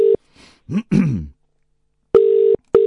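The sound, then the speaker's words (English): Telephone ringing tone on an outgoing call-back: a steady, buzzy mid-pitched tone in short bursts, with one clipped burst at the start and a paired ring near the end, a brief throat-clearing sound in between. “Right, let me give Dion a call back.”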